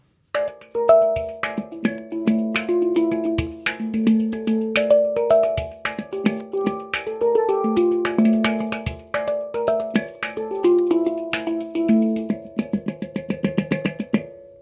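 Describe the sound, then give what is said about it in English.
Hang drum played solo, mixing ringing metallic notes with dampened notes and percussive beats, many strikes forming a melodic pattern, ending in a quick run of repeated taps. “sitting down with us in our studio to show us just a little of what the hang is capable of”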